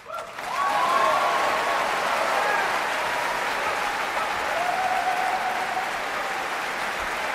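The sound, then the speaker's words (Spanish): Applause from a concert audience after an orchestra and a cello soloist finish a cello concerto. Dense, even clapping builds within the first second and holds steady and loud through the whole stretch. “Aplausos para Ibel Selautue”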